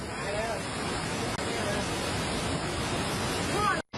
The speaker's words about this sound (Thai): พอยิ่งดึกน้ำก็ยิ่งไหลแรงซัดข้าวซัดของผ่านไปเสียหายต่อหน้าต่อตาเลยนะคะ